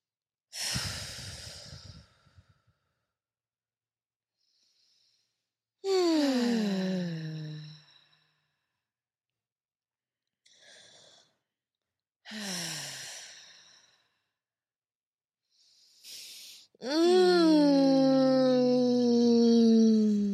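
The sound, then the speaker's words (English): People taking deep breaths together: quick airy inhales, each followed by a long voiced sigh that falls in pitch. There are three drawn-out sighs, and the last is the longest and loudest. “Take a few breaths with us.”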